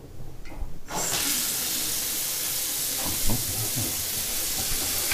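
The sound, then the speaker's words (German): Tap water gushing from a faucet, left running so it turns cold; after a few brief knocks, a steady, full hiss starts and continues evenly to the end. “Ein bisschen laufen lassen, weil es soll ja auch kalt sein und nicht warm.”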